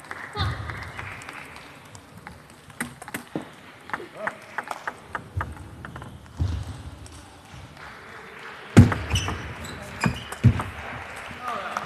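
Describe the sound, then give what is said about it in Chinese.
A table tennis ball clicks sharply as it is served and hit back and forth in a women's singles match, quick irregular knocks with a louder noisy burst near the end and a voice speaking throughout. “女子单打，王晓彤对孙颖莎，第一局比赛，孙颖莎发球，0-0。”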